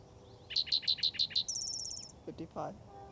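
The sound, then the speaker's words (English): Spotted towhee song in the Gibson Jack area: six clipped, evenly spaced high notes followed by a fast, buzzy higher trill, then a few faint lower sounds. “Spotted towhee number 2 for the Gibson Jack area.”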